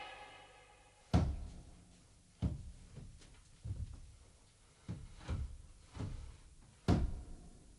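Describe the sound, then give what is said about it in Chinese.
Several heavy thuds and knocks as a large gate is opened in a Cantonese period drama, spaced unevenly and each ringing out briefly over a low background. “打开大门。”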